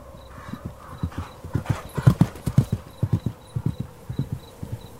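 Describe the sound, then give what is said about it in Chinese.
Horse hooves clip-clop at a steady, even pace on a quiet autumn night, giving many crisp, evenly spaced knocks that are fairly loud and heard alone with no voices. “达达的马蹄声在寂静的秋夜听起来格外响亮”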